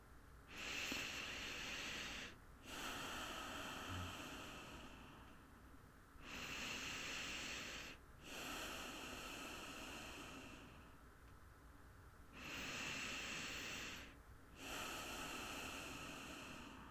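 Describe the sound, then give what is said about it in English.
Slow, deep human breathing: three full breaths, each a soft airy inhale followed by a longer hissing exhale. The breaths are faint and even, with brief pauses between them and no talk. “I want you to close your eyes, take 3 deep breaths.”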